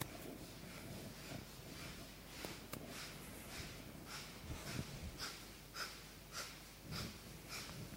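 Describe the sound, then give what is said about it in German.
Kapalabhati yoga breathing, a quick, steady rhythm of many short, forceful nasal exhalations, each a sharp, faint snort, with no talking. “Dann noch eine Runde Kapalabhati, another round of Kapalabhati.”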